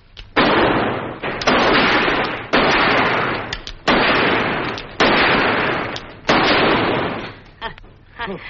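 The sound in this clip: Gunshots from a handgun: six loud blasts, each followed by a long rushing decay, spaced roughly a second apart, with a fainter final burst at the end.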